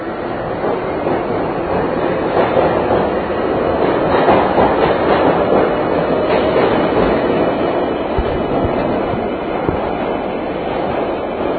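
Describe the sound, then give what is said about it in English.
A London Underground train pulls away with a steady, loud rumble and rattle of wheels that swells slightly in the middle and then holds. No voices are heard. “And here's the underground pulling away.”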